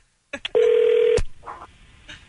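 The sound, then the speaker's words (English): Telephone tones as a prank call is dialed to a hardware store: a few short clicks, then one steady mid-pitched tone held for just over half a second, followed by a fainter, shorter tone burst. “Calling a hardware store. This is our prank call. It's the phone”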